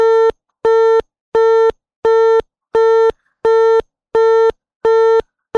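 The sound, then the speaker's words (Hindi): A busy tone sounds on a phone line after a call is cut off. A loud, steady electronic beep pulses evenly on and off about nine times, alone with no talk. “शायद उन्होंने phone cut दिता है ते कोई गल नहीं।”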